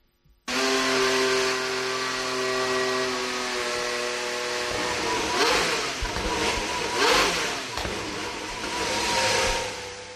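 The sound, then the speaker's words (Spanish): Aston Martin Formula 1 car's Mercedes engine firing up abruptly, then settling into a loud, steady, harmonically rich idle before a few sharp throttle blips rev it higher and let it fall back. “Como es el arranque ¿eh? del motor, sí. O sea, eso es al, ralentí, luego pisándolo un poco, ¿no? Exacto, al ralentí y le dan un poquito y, bueno, y ahí lo tienes. Eh, es un momento siempre muy importante para todos los equipos, es el motor Mercedes que lleva Aston Martin”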